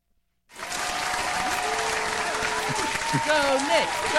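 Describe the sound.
Applause sound effect played as a reward for voting: after a moment of silence, thick crowd clapping bursts in and stays loud and steady to the end.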